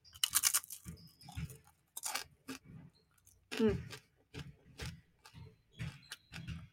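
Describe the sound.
Crunchy bites and chewing of a light seed cracker packed with seeds: many sharp, dry crunches in an uneven rhythm, separated by short quiet gaps.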